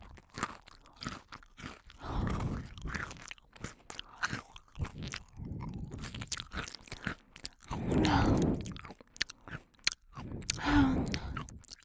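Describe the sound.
Crunchy food bitten and chewed: many sharp, crisp crunches in an irregular rhythm, with louder bursts of munching in places, fairly quiet overall.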